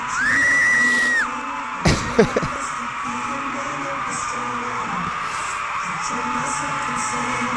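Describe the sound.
A crowd yells and whoops as a stage show begins, with a man yelling among them. A steady high tone fades early, then a few sharp bangs ring out before sustained loud crowd noise.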